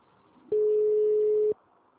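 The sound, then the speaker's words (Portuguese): A telephone tone sounds after a dropped call: a single steady, mid-pitched beep lasting about a second, with faint hiss before and after. “Caiu a ligação.”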